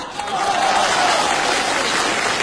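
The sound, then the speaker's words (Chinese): Applause from the men in the audience at a New Year greeting, a loud, dense, steady patter of clapping with a faint sustained voice tone running through it. “因为我发现男同胞的掌声啊热烈。”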